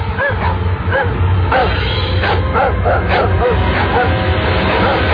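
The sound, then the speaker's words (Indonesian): A frightened, jumpy dog barks repeatedly and won't stop, giving a run of short yips and barks over a constant noisy background. “Tiba-tiba Bruno menggonggong tidak mau diam.”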